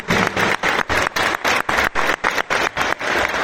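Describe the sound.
Applause for a futsal academy teacher, heard as loud, even bursts of clapping that pulse in a regular rhythm with short gaps between them.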